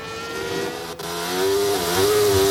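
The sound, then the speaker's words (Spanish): Racing cars pulling out of the pit lane side by side, giving a sustained high engine whine that swells louder partway through and then holds steady to the end. “Y salen emparejado de boxes Albon con Stroll, que pone el neumático duro.”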